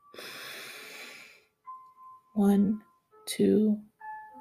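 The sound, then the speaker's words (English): A nasal inhale through one nostril during an alternate-nostril breathing meditation. It comes first as a single airy breath, then a short quiet gap, then brief voiced sounds and talk. “And breathe out through the now open nostril. Are you ready? So breathe in.”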